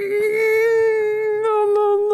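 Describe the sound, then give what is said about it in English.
A sustained, high wailing cry holds a nearly steady pitch without a break, rich in overtones and fairly loud, with no other sound around it. “She's crying. No, she's sobbing.”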